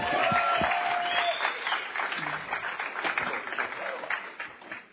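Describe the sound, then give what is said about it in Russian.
Enthusiastic audience applause welcoming a guest on stage: loud, dense clapping from a crowd that starts strong and gradually eases off toward the end. “Давайте мы бурными аплодисментами поприветствуем Джейсон.”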